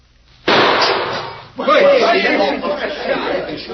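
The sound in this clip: A sharp gunshot bursts out at a bottle tossed into the air, a loud crack whose noise rings on for about a second, followed by people chattering and chuckling.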